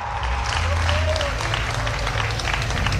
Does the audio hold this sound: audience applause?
yes